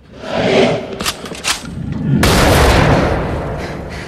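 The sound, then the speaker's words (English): A rifle shot is fired at a snarling attacker as he prepares to pounce. A few short, sharp knocks come first, then a sudden loud blast whose roar lingers and slowly fades. “As Jonas prepares to pounce, he's felled by a shot from Rachel.”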